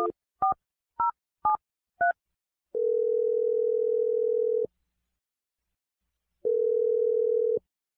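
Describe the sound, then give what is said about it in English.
Touch-tone telephone dialing: five short, distinct keypad beeps in quick succession, followed by two long, steady tones separated by a stretch of silence, clean and alone. “I'm going to dial Michael's number right now. You ready, Summer? I'm ready. All right, here we go.”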